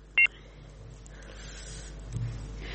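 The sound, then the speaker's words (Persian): A single short electronic beep sounds as a phone call cuts off, followed by faint steady hiss. “متاسفانه بازم تماس برادر ما فکر کنم که قطع شد”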